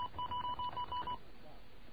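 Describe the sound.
A telephone being dialed, probably a toll-free number, gives a quick run of short, evenly spaced touch-tone beeps. They are faint and stop abruptly, leaving a low hiss.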